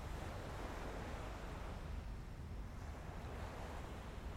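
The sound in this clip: Ocean waves washing onto a sandy beach, a soft and steady rush of surf with a touch of wind, faint and unbroken throughout with no talking.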